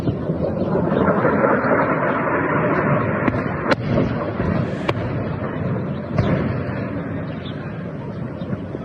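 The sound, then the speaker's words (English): Explosions from massive airstrikes across a country: a dense, loud, steady roar with a few sharp cracks breaking through it, and no clear talk. “That's just massive airstrikes hit this entire country.”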